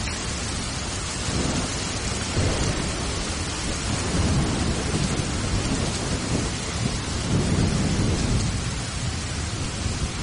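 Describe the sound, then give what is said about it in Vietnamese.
Thunder rolls through a storm of heavy wind-driven rain: a steady, loud hiss of downpour on surfaces, with low rumbles of thunder swelling and fading several times beneath it. “Noãn Tâm chân trần một mạch chạy xuống núi, nước mắt trong cơn điên cuồng của mưa gió bão bùng, không thể nhìn phân biệt đó là nước mắt hay nước mưa.”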